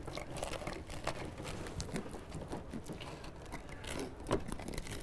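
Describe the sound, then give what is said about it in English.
A bread knife saws through a loaf with a steady, coarse rasping and crunching, like a saw, in continuous strokes with a few sharper crunches. “But that bread knife, now listen to the cut. See, it's like a saw.”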